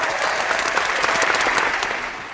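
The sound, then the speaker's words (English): Applause from a crowd, dense continuous clapping that holds steady before easing off slightly at the end. “Let me have some applause for that. You want some applause for that?”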